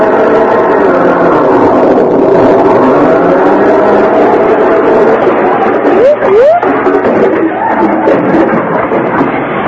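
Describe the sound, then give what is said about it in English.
A car drives across a neighbour's lawn in a comedy scene. A loud, steady engine drone runs throughout, with people talking over it. “What are you two to think you're doing? Driving across my lawn with that car.”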